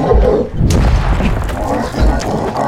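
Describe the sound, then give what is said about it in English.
A laser pistol firing in a sci-fi audio drama: a deep, heavy booming rumble with a sharp, bright crack of noise partway through, then sustained low thuds. “try your laser pistol! Bad idea! Bad idea!”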